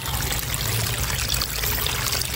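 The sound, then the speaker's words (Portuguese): Dirty sewage water runs steadily along a city avenue beside a municipal daycare in Recife, Brazil, making a continuous, even rushing and pouring sound with no pauses and no talk. “Esse barulho que você ouviu não é de chuva não, é de água de esgoto. A água suja escorre o tempo todo aqui pela Avenida Pedro de Melo Pedrosa”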